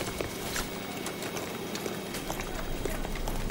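Footsteps of people walking together, a steady run of soft, closely spaced steps blended into continuous background noise.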